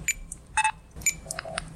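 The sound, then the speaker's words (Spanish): Checkout scanner beeps in a supermarket: several short, high electronic tones at irregular intervals over a low murmur of store background noise. “Este es el sonido de un supermercado.”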